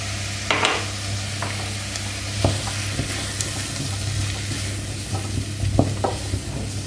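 Food sizzles in a hot pan while about 15 grams of flour is dusted over it and stirred in to brown, a steady frying hiss broken by a few light scraping clicks of the spoon.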